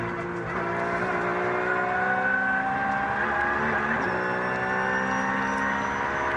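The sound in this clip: Onboard engine noise from a Porsche race car on track: a loud, sustained high-revving drone whose pitch climbs steadily, broken by brief shifts, with no talk over it.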